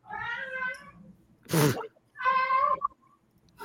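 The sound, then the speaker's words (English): A male pet cat meows twice, each a drawn-out, fairly loud tonal cry, with a short noisy burst between them and a brief clipped sound at the very end. “meow. Because I've not been paying attention to him because he clawed my leg up trying to jump on me. My cat has now brought me a fish taco toy.”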